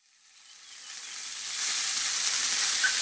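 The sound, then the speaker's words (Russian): Meat sizzles on a mangal grill at a grill fest, a bright crackling hiss. It swells gradually from quiet to loud over the first second and a half, then holds steady. “Слышите? Это гриль-фест в Евроопт. Еще чуть-чуть, и мясо уже на мангале.”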